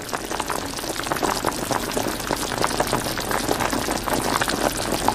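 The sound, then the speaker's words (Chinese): Pork slices stir-fry and render in lard over high heat, a dense, continuous sizzle full of fine crackles and spatters that holds steady and loud throughout, with no talk. “猛火不停翻炒半个小时左右，肉片逐渐被澄清透亮的猪油慢慢浸没。”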